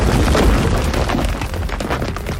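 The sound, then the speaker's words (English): Heavy rumbling blast from a stone pyramid attack in a turn-based monster battle video game, one loud, noisy, sustained boom filling the whole clip. “Soul Doctor used Stone Pyramid.”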